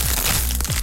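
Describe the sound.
Tortilla chips crunch in a dense, continuous crackle of brittle snapping, loud and unbroken from start to finish.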